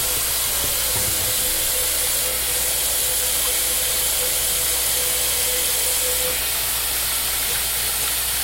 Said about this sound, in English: Now, okay, and I will be washing my hands.